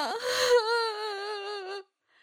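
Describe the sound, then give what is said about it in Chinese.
A girl cries in a single sustained, wavering wail, high and tonal, that holds for under two seconds and then cuts off. “门口传来林冰冰的哭声”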